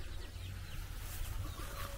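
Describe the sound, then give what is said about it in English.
Faint clucking from little chickens: a few soft, scattered calls over a steady low rumble and background noise, with no voices. “There's these little chickens again. Cute little fellas.”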